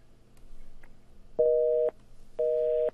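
A telephone busy tone sounds after a call is cut off: two even, steady tone pulses of equal length, separated by a short gap, follow a stretch of faint noise.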